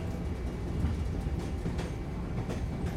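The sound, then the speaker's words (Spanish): A train rolling on rails gives a steady, low rumbling roar with faint rattling running through it, unbroken for the whole stretch and with no voices. “el tren hace una llamada. Cargas tu pesada maleta y te diriges lo más deprisa que puedes al interior de este tren.”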